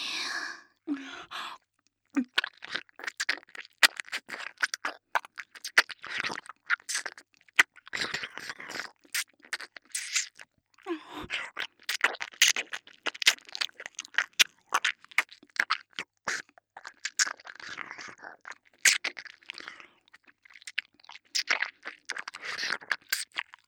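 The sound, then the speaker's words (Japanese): ASMR ear-eating mouth sounds, wet clicks, nibbling and chewing up close, many irregular crisp bursts broken by brief quiet pauses. “お耳食べていいですか。先輩のお耳”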